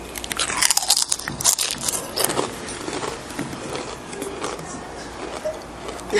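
Crunching on flavored potato chips: dense, crackly bites that are sharpest and loudest at the start, then settle into steadier, gritty chewing. No talk.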